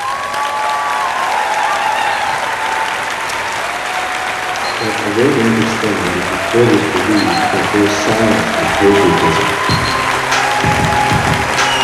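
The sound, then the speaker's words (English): An audience applauds to welcome a speaker onto the stage. The clapping is dense and steady throughout, and voices begin to rise through it about halfway in. “Please put your hands together and welcome Greg.”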